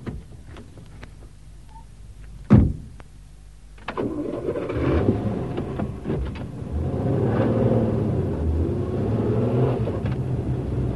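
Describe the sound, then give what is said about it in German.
An official car with a London registration plate: a sharp door thud, then the engine starts and settles into a steady low running rumble. “Draußen stand ein Dienstwagen mit Londoner Nummer. Los, steigen Sie ein.”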